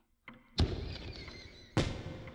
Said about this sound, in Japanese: 花火ですか。季節外れな。